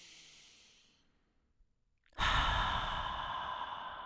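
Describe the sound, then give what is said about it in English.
Slow, deep breathing during a guided meditation: a soft, airy exhale fades out, then after a brief silence comes a loud, sustained breath drawn in through the nose. “Exhale all the air from your lungs. Inhale through your nose.”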